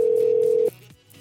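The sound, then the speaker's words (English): A telephone ringback tone while a call waits for an answer: one steady, loud, mid-pitched tone that cuts off abruptly, leaving a low hum. “If anyone will answer the phone.”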